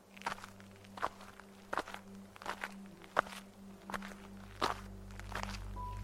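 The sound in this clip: Footsteps of people walking down a road, one of them limping and leaning on the other for support. The footfalls form a steady series of many soft thuds over a low, constant hum.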